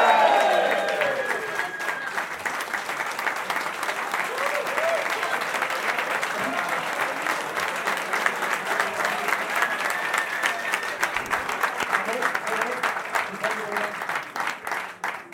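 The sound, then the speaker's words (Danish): An audience at a Danish football club event applauds as a player's contract extension is announced. A voice is heard briefly at the start, then many hands keep clapping in a sustained burst, thinning slightly toward the end. “Giv en stor hånd til Mohamed Darami!”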